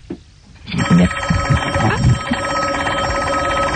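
A telephone rings on a direct line. A continuous electronic bell trill begins after a short quiet moment and keeps ringing to the end.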